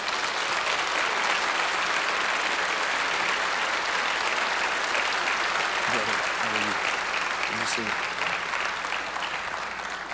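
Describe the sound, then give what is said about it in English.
Audience applause welcoming a guest speaker at a Compassion Sunday gathering: ten seconds of steady, dense clapping that holds an even level throughout, with a brief voice rising above it partway through. “So y'all give him a hand.”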